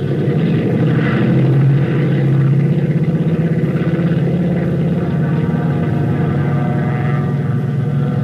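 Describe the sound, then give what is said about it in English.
A multi-engine propeller airplane takes off with a loud, continuous engine drone. The low, buzzing, pulsing hum stays steady throughout, with no voices. “Contact Chicago radio before letdown. Cleared for takeoff.”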